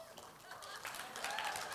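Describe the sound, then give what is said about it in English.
A church audience claps and applauds, a faint, steady patter of many hands that builds slightly, with voices mixed in beneath it. “I don't see all of you clapping. Clap more.”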